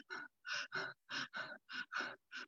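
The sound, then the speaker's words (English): Shallow, rapid chest breathing through the mouth, demonstrating fight-or-flight breathing: many quick, evenly spaced, breathy puffs in a steady rhythm, fairly faint, with no talk. “our breath gets shallow. So we breathe in our chest and maybe even through our mouth. And it could look something like this.”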